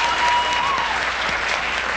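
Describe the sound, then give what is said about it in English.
Loud, sustained audience applause, a thick and unbroken roar of many hands clapping that holds steady from start to finish. “You're damn right we should applaud.”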